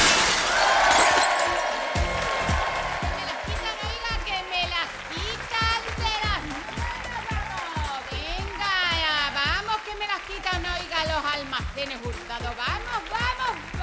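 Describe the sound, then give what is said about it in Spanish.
Glass shattering sound effect: a bright, crashing burst at the start, followed by many voices talking loudly over a busy background. “El sonido hecho añicos.”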